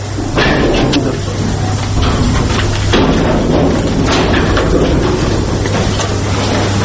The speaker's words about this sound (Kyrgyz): Мына. Оо, агып атат. Көтөрүлүп атат. Азыр дагы бир насоста мына суу басат бул жерди. Ошон үчүн бизде азыр эки насосту бир насос иштеп атат